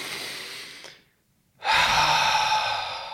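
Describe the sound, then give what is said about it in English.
A deep, long exhale as a breathing technique for flexibility training: a loud, steady breathy rush lasting over a second, slowly easing off. It follows a softer breath and a brief silence. “a deep, long exhale like that”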